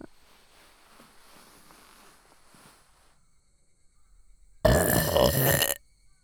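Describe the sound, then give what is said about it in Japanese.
A single loud, drawn-out burp, blown into someone's ear, lasts about a second and breaks abruptly after a stretch of faint background hiss. “こうやってお主の耳にゲップを吹き込んで神の力を注入するのじゃ。”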